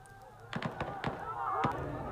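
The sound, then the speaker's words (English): Police fire shots to break up a protest against emergency rule in a northwestern province: several sharp, irregular bangs in quick succession, with voices in the background. “Police firing shots to disperse people protesting the emergency rule in the northwestern province of Khyber Pakhtunkhwa.”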